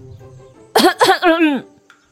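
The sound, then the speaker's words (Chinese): Sputtering coughs from someone choking on a sip of tea: three harsh voiced bursts in quick succession, the last one drawn out and sliding downward in pitch before trailing off. “萧良端着吴一霍给他的小茶盅正品茗呢，听小四子一句话呛得直咳嗽”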